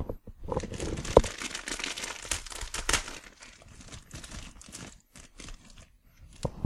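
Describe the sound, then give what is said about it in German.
A plastic bag of cream toffees crinkles as it is opened, with busy, fairly quiet rustling and crackling in irregular bursts and brief pauses, without talk. “Moment, ich muss mal die Tüte aufmachen.”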